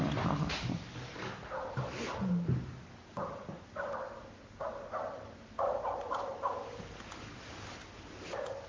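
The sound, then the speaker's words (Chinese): A dog barks in several short bursts over a faint low background rumble. “我听见狗叫了”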